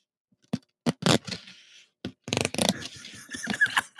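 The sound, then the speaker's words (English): Paper tears along the perforated edges of a folded ballot as it is peeled apart. A few sharp, separate crinkling snaps come first, followed by a longer, ragged stretch of tearing and scraping. “I'm going to fold it over the other way and do that again just to really ease those perforations into a point where I can begin to peel them apart. And here I go, and I'm peeling.”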